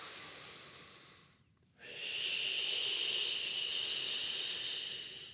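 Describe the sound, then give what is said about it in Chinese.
Deep breathing: a long, airy breath hisses steadily, breaks off in a short pause, then gives way to another long, full breath that swells and slowly fades, fairly soft and with no voices. “呢個就好深呼吸嘅，你唔需要咁多嘅其實”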